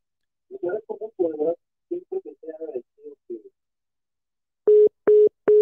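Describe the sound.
After a phone call cuts off, three short, steady line-tone beeps sound at an even pace, following a stretch of talk.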